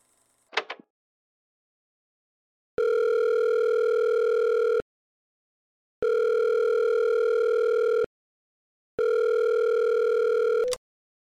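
An unanswered phone call ringing: three long, steady electronic tones of about two seconds each with short silences between, a brief click before them and a click cutting off the last.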